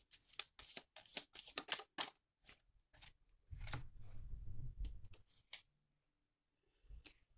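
Tarot cards being handled and drawn from a deck: a quick run of crisp papery flicks and snaps, then a longer soft sliding rustle, a few isolated taps and a brief quiet stretch, all fairly faint.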